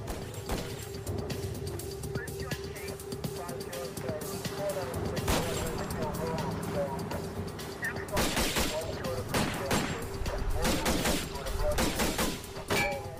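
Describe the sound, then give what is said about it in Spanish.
Rifle gunfire during a police stop of a pickup truck: harsh, rapid cracks in dense bursts, heaviest in the later seconds, over a constant noisy background with voices mixed in. “Cuando los oficiales abordan la camioneta, el conductor saca un rifle y comienza a disparar.”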